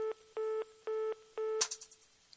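A telephone tone after a dropped call: four evenly spaced beeps of a steady mid-pitched tone, followed by a sharp click and a few short crackling bursts that fade out.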